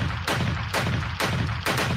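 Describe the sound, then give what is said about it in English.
A gunshot sound effect: several loud, booming, noisy blasts in quick, fairly even succession, each swelling and then rolling on with no pause for quiet. “Shots fired.”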